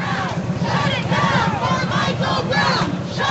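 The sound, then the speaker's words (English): Protesters blocking an intersection at 42nd and International in Oakland shout and chant together. The loud crowd voices come in steady rhythmic bursts with no pause. “That's the sound of protesters blocking an intersection at 42nd and International in Oakland over the weekend.”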